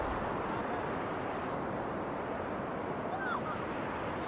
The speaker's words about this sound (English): Tides coming in.